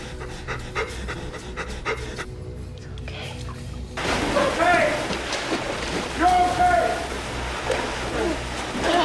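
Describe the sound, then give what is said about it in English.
Water gushing in a huge torrent from a shattered glass tank: after a duller, quieter stretch, a loud broad rushing roar bursts in and keeps churning, with thin squealing tones riding over it. “He swings it at the glass and shatters it, sending gallons of water gushing out in a huge torrent.”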